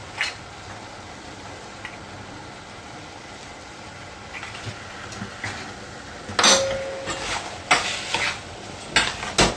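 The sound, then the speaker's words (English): Stirring turmeric and salt into a mixture: faint, soft scraping at first, then several louder, sharp clinks of a utensil against the vessel toward the end. “Mix them in thoroughly so the color, the turmeric, is evenly distributed.”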